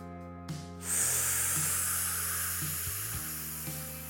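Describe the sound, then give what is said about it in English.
Deep breath drawn in through the nose, a long, steady airy hiss lasting around three seconds and fairly quiet. “no, I am not taking a hit off of anything, although it sounds like it. I was just taking in a deep breath”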